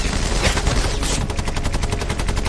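A Bren light machine gun fires in a sweep along a hedge line, a loud run of rapid shots that settles into a fast, regular rhythm of evenly spaced reports.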